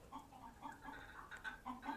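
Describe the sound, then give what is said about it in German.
Hens cackling in a henyard, a faint, continuous run of repeated clucks with nasal, pulsing tones and no voices. “War das ein Gegacker und Gekrähe, als ihre Ankunft von den Hühnern bemerkt wurde.”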